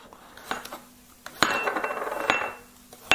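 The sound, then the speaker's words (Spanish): Knife chopping garlic cloves and vegetables: a few sharp strikes with clinking, scraping and rustling between them, with no talk. “Bueno, vamos a picar lo que es la verdura. Vamos a 4 o 5 ajitos.”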